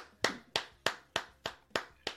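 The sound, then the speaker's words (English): Hand clapping in a round of applause for a guest on a show: seven sharp, evenly spaced claps in a steady rhythm, with nothing else heard. “And everyone give Nate a round of applause.”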